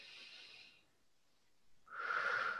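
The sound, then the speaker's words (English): Air drawn in through the nose during a guided breathing exercise, a soft airy hiss in two faint stretches separated by a quiet pause, the second louder and more tonal. “now notice I'm like circling, breathing in through my nose in the circle”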